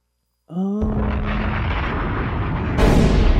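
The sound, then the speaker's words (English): Bomb explosion sound effect: a brief tonal onset gives way to a long, dense rumbling blast that holds steady, then surges louder and brighter near the end. “Somebody hit the bomb.”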